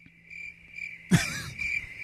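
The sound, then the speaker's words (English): Crickets chirp in a steady, high-pitched trill that stays faint and continuous throughout. A short, louder thump cuts across it briefly around the middle. “Yes, the crickets are back.”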